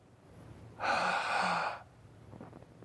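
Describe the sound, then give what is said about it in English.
A voice imitating a sudden intake of breath: one drawn-out, breathy gasp lasting about a second, heard alone against a faint background hiss. “A breath. The Son of God took a breath.”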